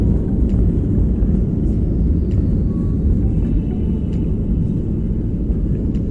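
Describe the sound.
A passenger airplane accelerating down the runway for takeoff from London with flaps set, heard from the cabin as a loud, steady low roar and rumble that continues throughout.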